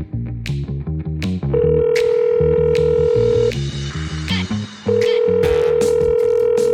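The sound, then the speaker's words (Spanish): A landline telephone being used to place a call: steady, high telephone tones sound in two long stretches over a busy, rhythmic musical bed with pulsing bass notes. “Se levantó y cogió el fijo. Llamamos a la sala”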